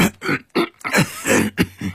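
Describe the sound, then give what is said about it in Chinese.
Coughing from a flustered father: a quick string of rough, throaty coughs and throat-clearing bursts, close together and fairly loud, with no speech. “老爸慌了一阵咳嗽。”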